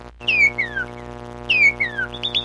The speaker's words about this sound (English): The bright red northern cardinal sounds like this.